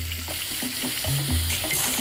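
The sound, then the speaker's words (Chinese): River snails being stir-fried over high heat give a loud, continuous sizzle with repeated scraping and stirring clatter throughout. “火爆炒。”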